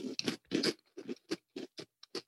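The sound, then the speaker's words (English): Close-up chewing of a snack that is both crunchy and chewy: many quick, crisp bites and mashing sounds in an uneven rhythm, fairly soft, with no talk. “Wow, I love the texture. Yeah, I really like the texture. It is both crunchy and chewy at once.”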